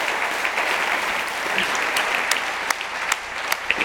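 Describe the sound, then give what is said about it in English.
Audience applause for Emad Mostaque: a dense, steady wash of many hands clapping, with a few sharper, louder claps standing out near the end. “Yes, let's give it up for Emad on that one, yes?”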